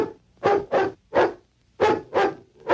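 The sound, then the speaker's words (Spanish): A cartoon dog barks signals during an American football game: six sharp, loud barks in an uneven rhythm, with a short pause in the middle. “El capitán ladra sus señales.”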